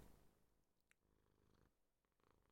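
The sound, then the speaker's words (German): A cat purrs while held in someone's arms, a faint, steady low rumble that runs through the short moment without a break. “Oh, man hört sie schnurren.”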